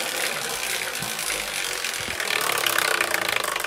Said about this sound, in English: Because I'm about to spin the wheel, so put it out there.